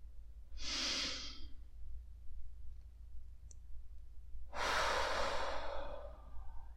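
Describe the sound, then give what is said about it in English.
Deep breaths during a guided meditation: two long, airy breath sounds, each lasting a second or more, separated by a quiet pause over a soft low hum. “Inhale.”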